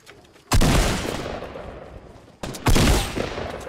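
Gunfire in a video game: two loud bursts of rapid shots separated by a pause, each hitting hard and then trailing off in a rumbling tail, with no voices.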